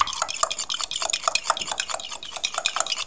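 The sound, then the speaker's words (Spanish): Whisking sponge-cake batter with oil and milk in a bowl: many quick, rhythmic scraping and tapping strokes in a steady, busy pattern, with no voices. “echamos la cucharada de aceite y 1 de leche, lo seguimos batiendo”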